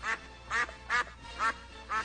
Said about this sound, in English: Ducks. There they are.